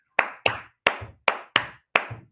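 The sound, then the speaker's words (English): Six sharp hand claps in a loose, steady church-clap rhythm, each one crisp and bright with a short decay. Silence falls between the claps. “We're going to be a van full of people ready to church clap.”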